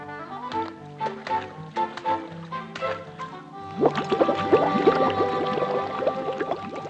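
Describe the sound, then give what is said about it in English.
Water bubbles and splashes in a tub as an elephant calf snorts bubbles through its trunk. Soft gurgles and plops come first, then a denser, louder stretch of bubbling and splashing. “She smiles as Dumbo snorts bubbles into the water and splashes it with his trunk.”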